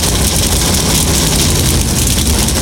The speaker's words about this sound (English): The engines come to life on the pit lane as the Naval Hornets go blasting by overhead.